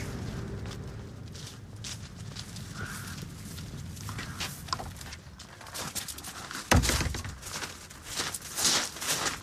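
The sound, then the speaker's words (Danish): Footsteps cross a farmyard and climb steps up to a farmhouse: soft, irregular treads, with one louder thump midway and a few sharper steps toward the end. “Nu er vi så kommet ind i gårdspladsen igen her, og vi træder op ad trappen her til stuehuset.”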